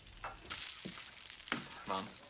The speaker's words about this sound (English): a middle-aged woman flips sizzling rashers of bacon in a pan.